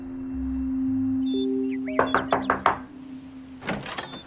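Knocking on a door: a quick run of several sharp, crisp raps in close succession, loud and alone with no talk, over a steady low background hum.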